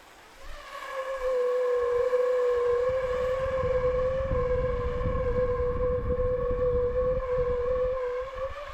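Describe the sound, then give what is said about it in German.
A steady, loud humming tone with strong overtones rises from a plastic tube about 50 cm long and 5 cm wide held over a burner flame pointing upward. It starts after a short rumble and holds one pitch over a low roaring flame. “drehe ich meinen Brenner so um, dass die Flamme genau nach oben zeigt und stülpe dann ein Rohr drüber, zum Beispiel ein Kunststoffrohr mit etwa 50 cm Länge und 5 cm Durchmesser.”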